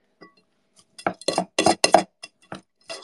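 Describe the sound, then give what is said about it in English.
Clinking of a utensil against a bowl as salt is mixed into a mixture: a quick, uneven series of bright clinks and scrapes, fairly loud, with no talk. “Put a little salt in. And mix. Mixy, mixy, mix.”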